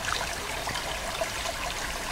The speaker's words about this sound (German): Es sieht aus, als hätte der Teufel viele Säcke Steine ausgeschüttet, zwischen denen das Wasser plätschert und gurgelt.